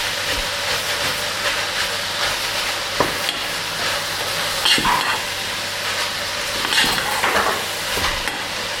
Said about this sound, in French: On met d'abord les oignons dans l'huile. Ouais. On remue, on met du sel.